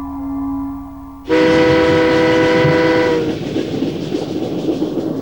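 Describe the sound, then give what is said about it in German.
A train runs on the rails of a transatlantic railway, its horn blaring loudly over heavy rumbling. The horn then cuts off while the steady rolling clatter of the carriages continues. “Am Abend des nächsten Tages saß Kai in einem Abteil erster Klasse der Transatlantik-Eisenbahn.”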